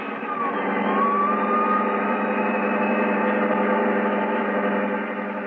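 A getaway car speeding off, its engine holding a loud, steady droning roar throughout, with a thin whine briefly rising over it early on and no voices.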